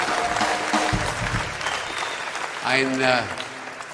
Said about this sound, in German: wir haben natürlich mit diesem Applaus gerechnet